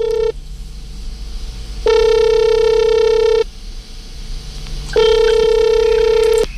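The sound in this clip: Ringback tone of an outgoing telephone call, a steady two-toned electronic ring repeating in long bursts. Two full rings separated by quiet gaps, with the tail of an earlier ring at the very start. No voices.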